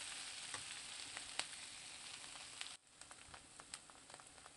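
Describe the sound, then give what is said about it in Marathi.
Fenugreek leaves are sautéed and stirred in a pan, giving a steady, soft sizzling hiss with a few sharp crackles and a brief dip in the frying noise partway through. “मेथी व्यवस्थित वरखाली परतून घ्यायची आहे।”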